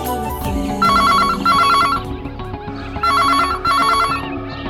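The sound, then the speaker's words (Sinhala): A landline telephone rings at a house in two double-ring bursts, a bright warbling electronic trill pulsing over a dense, busy background, with a pause between the pairs and no speech. “විසල් කල්පනා කරලා කරලා ධාරගේ ගෙදරට call එකක් ගත්තේ ඕන දෙයකට මුණ දෙන බලාපොරොත්තුවෙන්. ඒත් ෆෝන් එක අන්සර් කළේ භාග්‍ය.”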